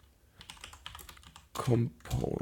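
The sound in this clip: Quick, irregular patter of light keystrokes from typing on a computer keyboard, with a voice speaking briefly near the end.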